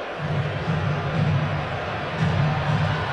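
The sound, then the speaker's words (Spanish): A baseball crowd chants the name of Dominican player José Ramírez, a low, repeated chant that swells in rhythmic waves over steady crowd noise. “De la República Dominicana, José Ramírez, el público, ustedes lo escuchan, José, José, José.”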